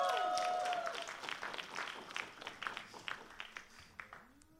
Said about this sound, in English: Could you please join me in welcoming Jocelyn and Jenny up to the stage right now? Can you give them a big, big hand here in this place right now?